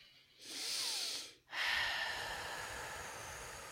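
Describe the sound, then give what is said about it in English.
Deep breathing by people during a group breathing ritual: a long, airy breath is drawn in, followed by another sustained, hissing breath that slowly fades. “Let's take a breath in.”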